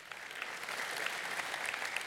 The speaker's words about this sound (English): I do think we should clap for that.